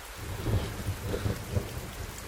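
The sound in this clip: Steady rain hisses throughout, with low thunder rumbling underneath in a few soft swells; no voices are heard.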